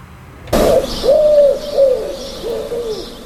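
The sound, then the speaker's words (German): Pigeons cooing in a city: a series of soft, low, rounded coos repeating at a steady pace after a sudden start, with no voices. “Und die Geräusche und einfach generell die Präsenz von Tauben sind ja auch aus unseren Städten einfach nicht mehr wegzudenken.”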